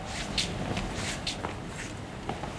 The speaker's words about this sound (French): je vais vous demander de marcher 10 pas, comme vous marchez chez vous, le temps que les systèmes enregistrent la marche